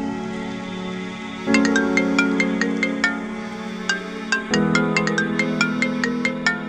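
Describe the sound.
A phone ringtone plays a bright chiming melody of quick repeated notes. It starts after a quiet opening and repeats its phrase once, sounding clear and alone.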